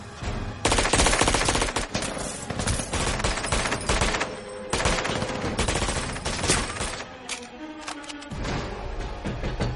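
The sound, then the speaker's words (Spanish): Submachine gun fire in an action film shootout: dense, rapid bursts of loud shots that run almost the whole time, with only brief dips between volleys. “salta sobre el con metralleta y lo mata”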